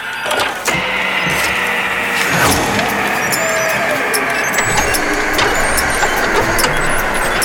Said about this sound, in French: J'enclenche à nouveau la roue de la fortune littéraire.